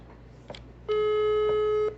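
Telephone ringing tone while calling a friend: a single steady, buzzy electronic tone that holds for about a second, then cuts off, over a faint low hum.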